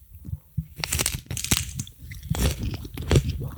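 A crunchy snack, said to taste like rice cakes mixed with tomato paste, is bitten and chewed, giving many irregular crisp crunches and crackles with no talk over them.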